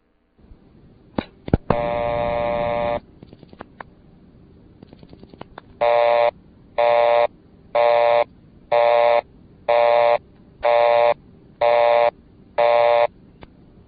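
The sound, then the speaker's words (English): A telephone dials a busy number on a Leich PBX: a few clicks and a steady dial tone, then bursts of dialing clicks, followed by eight evenly spaced, loud busy-signal beeps. “Now we'll dial a busy number.”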